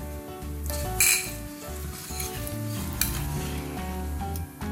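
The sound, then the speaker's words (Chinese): Soy sauce sizzles in a pan with dissolved brown sugar, a continuous loud frying hiss with stirring and occasional sharp utensil clinks against the pan. “好，我们最后下的是酱油。 嗯， 对，酱油就是为了要调色。”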